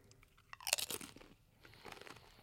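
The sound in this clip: A crunchy bite into Pineapple Reaper flavoured food, made close to the microphone: a sharp crackling crunch, then a pause and softer crunching from chewing, all fairly faint.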